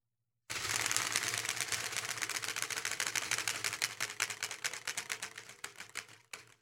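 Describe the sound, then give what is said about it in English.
A homemade spinning wheel mounted on plywood, with a sprinkler-head pointer, spins while a card clatters in its spokes: a dense run of rapid clicks that thins out and slows toward the end before stopping. “It has a sprinkler head as a pointer. You really, it's mounted on some plywood. You just have to go to the webpage and take a look at the picture because the thing really defines explanation. And it's got a card in the spokes to make the noise. Here we go.”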